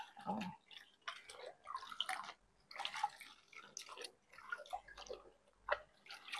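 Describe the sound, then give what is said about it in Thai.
Irregular splashing and dripping as cloth treated with alum is rinsed in water, with uneven bursts of sloshing and no voices. “สี่และห้าโอเคล้างผืนที่หนึ่งก่อนผืนที่หนึ่งได้แก่สารส้มนะคะ”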